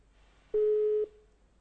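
A telephone busy tone after a caller disconnected: one steady mid-pitched beep lasting about half a second, then a faint fading tail over low background hiss.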